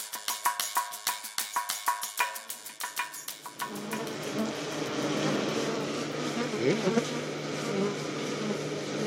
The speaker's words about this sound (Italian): Quello che avete ascoltato non è il rumore di un torrente in piena. Lo abbiamo captato davanti alla porticina di volo di un'arnia